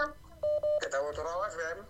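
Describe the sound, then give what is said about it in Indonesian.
A telephone call ringing in on a radio show: two short, steady electronic ring tones in quick succession. Voices follow and talk over a music bed. “Ada lagi ini dari via telepon, aduh. Oh iya, kita angkat ya.”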